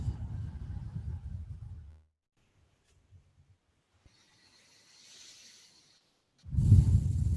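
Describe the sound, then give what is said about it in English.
Slow, deep breathing: heavy, airy breaths at the start and end frame a quiet pause and a soft, drawn-out hiss. “just taking a few breaths helps you get grounded, allows you to become more calm.”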